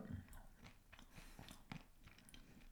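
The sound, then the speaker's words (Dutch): Close-up eating: someone bites and chews right next to the microphone, with many crisp, crunchy clicks and smacks in an uneven rhythm over a soft, steady background. “Ik vind het wel raar dat als je dan aan het eten zit, dat dan wel dicht in de micro kan gaan zitten.”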